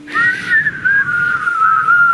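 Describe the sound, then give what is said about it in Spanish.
Whistling: a single sustained, fairly high whistled line that wavers slightly and drifts gently downward in pitch over about two seconds. It is loud and clear, with a soft background murmur beneath. “A ver, siguen chiflando.”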